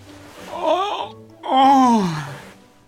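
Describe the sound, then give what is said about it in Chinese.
A big, exaggerated yawn acted out by a voice pretending to have just woken up. It comes as two drawn-out, moaning breaths, the second longer and sliding downward in pitch. “还故意打了一个大大的哈欠。”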